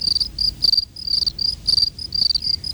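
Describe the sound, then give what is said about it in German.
Crickets chirp in many rapid, rhythmic bursts of high, shrill trills that start and stop in an uneven pattern, fairly loud and alone without voices. “Und wie überwintern die Grillen, die ja auch zu den wechselwarmen Tieren gehören?”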